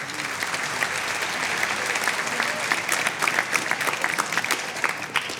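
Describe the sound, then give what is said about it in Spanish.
Dense, steady applause from a symphonic concert audience fills the whole stretch, with bright clapping and a faint crowd murmur. “Un aplauso para él.”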